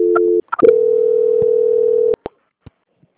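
Telephone line tones heard during a call transfer. A short steady tone is followed by a couple of clicks, then a longer steady hum-like tone of about one and a half seconds, and finally a few scattered clicks with no talking.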